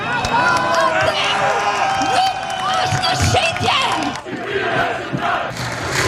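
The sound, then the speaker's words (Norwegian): Protesters in Tirana, Albania, chant and shout against plans for a luxury resort in a coastal nature reserve. The mass of voices stays loud, briefly dips, then surges again. “Folk protesterer, sånn høres det ut,”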